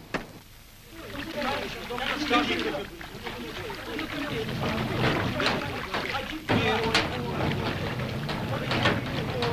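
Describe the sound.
A rowing boat is lowered onto the water and heads for a raft, with steady wash of water and wind noise, a sharp knock partway through and voices talking over it.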